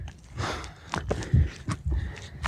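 Hurried footsteps climb a steep dirt path on the way up to a mountain hut. Several crunching, uneven steps follow in quick succession at moderate loudness.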